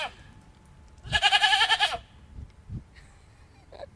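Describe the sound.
A herd of goats with their kids bleating, met along a hiking trail: one loud, long, wavering bleat stands out, followed by a couple of fainter, higher-pitched calls.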